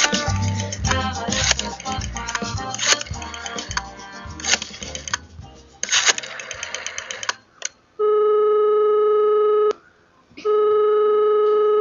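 A telephone rings for an incoming call, following a stretch of music: a steady electronic ring tone holds long and even, breaks off briefly, then sounds again at the same pitch until the end.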